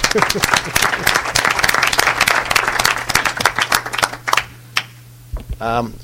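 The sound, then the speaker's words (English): Audience applause at a meeting: dense, steady clapping from many hands for about four seconds, thinning into scattered claps before stopping, then a short stretch of voice. “Well, congratulations. You've done it. So a hand to everybody.”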